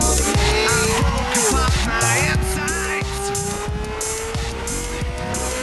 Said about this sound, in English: I'll put it in gear and I take off.